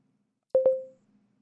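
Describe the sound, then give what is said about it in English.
Two quick electronic beeps from a mobile phone ringing, at a steady mid pitch, the second trailing off in a smooth fading tone before quiet returns. “Oh, it's my phone.”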